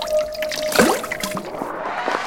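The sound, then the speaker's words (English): Magical muck water trickles and gurgles, with a cluster of bubbly, liquid splashes near the middle and softer dribbling afterward, at moderate loudness. “Look once more into my magical muck water.”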